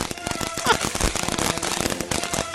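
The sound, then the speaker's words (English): Firework fountain lit outdoors and shooting sparks, heard as rapid crackling and popping bursts in an uneven, busy rhythm with a few louder snaps. “Very nice. Now, this has got a lot of the sparks. Like, oh, there's a nice one. Like, we shoot stuff into the air here? There's like a fountain with stuff going up.”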